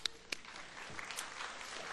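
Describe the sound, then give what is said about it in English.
Faint audience applause at an evening campus gathering. A couple of sharp claps open it, and a soft, even patter of clapping follows. “That was actually Colin's work, so we can give him a second hand of applause for that.”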